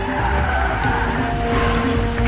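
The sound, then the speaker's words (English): Tires screech as a vehicle skids to a stop in a tunnel: a loud, continuous grinding squeal with rumble that holds steady for about two seconds without a clear change in pitch. “They skid to a stop.”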